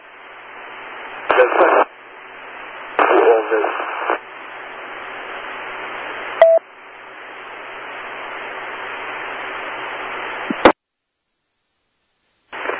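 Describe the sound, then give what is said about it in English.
Noisy amateur radio transmission with no readable voice: steady band-limited hiss and static with a few louder crackling bursts. A brief tonal blip comes midway, then the signal cuts out abruptly into silence before faintly returning at the very end. “Sorry, negative copy. I know you're there. I hear the carrier. But that's about it.”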